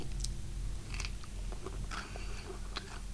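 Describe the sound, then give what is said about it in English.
Chewing chocolate chip cookies: quiet, crunchy bites and soft mastication clicks repeat irregularly over a steady low hum. “So we now, as you eat your cookies, what do you taste in the cookie?”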